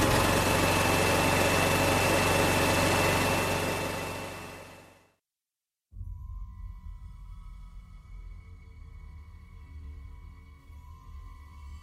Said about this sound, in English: We're going to actually play that Star Wars trailer for you right now on our show. So, without further ado, if you haven't seen it, well, you can listen to it. All right, let's roll that trailer.